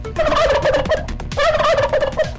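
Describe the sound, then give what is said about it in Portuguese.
A turkey gobbles loudly in two rapid, warbling bursts, each about a second long and separated by a brief pause. No other sounds accompany them. “Bora passar o peru aí.”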